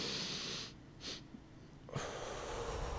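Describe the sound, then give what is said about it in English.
A breathing exercise: a long airy inhale, then a brief extra sniff, a short pause, and a long, steady exhale. “So this is what it sounds like. It's 2 inhales and 1 long exhale.”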